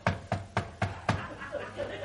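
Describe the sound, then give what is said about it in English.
Knocking on a door: five sharp, evenly spaced knocks in a quick, steady rhythm, then a few fainter, softer taps trailing off. “So I didn't think you could hear the knocking.”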